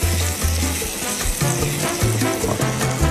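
Butter and sugar with vanilla cooking gently in a pan over low heat give a steady, soft sizzle that runs evenly throughout, with no talk.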